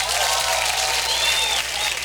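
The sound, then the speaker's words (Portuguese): Steady, dense applause fills the whole two seconds, cheering on football players after a three-goal win by a Brazilian club. The clapping is loud and even, with no break and no clear voices on top. “Você quer também palmas que para o Marcão? Você quer palmas para o Marcão, palmas para o Savarino.”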